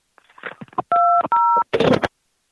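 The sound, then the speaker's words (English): Telephone keypad buttons pushed during a phone call give two steady DTMF beeps, each about a third of a second, with brief voice sounds and noisy bursts before and after. “What other buttons can you push, man? Let's hear them. Come on. Start pushing some buttons.”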